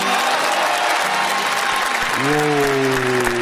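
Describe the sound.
Loud applause from the audience of a televised singing contest, greeting a song sung in Ukrainian. The clapping is thick and continuous, and held musical tones sound over it at the start and again in the second half.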